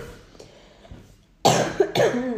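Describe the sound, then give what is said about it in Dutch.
A person coughing, a few short, harsh bursts that break sharply out of a quiet, low background and dominate the second half. “Het is echt vervelend, hè, zo'n hoest.”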